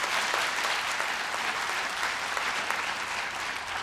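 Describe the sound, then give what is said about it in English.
Audience clapping at a talk, answering a prompt to clap if the environment and climate change is a priority. Dense, steady applause runs at an even level throughout, with no distinct claps standing out. “Clap if the environment and climate change is on that list.”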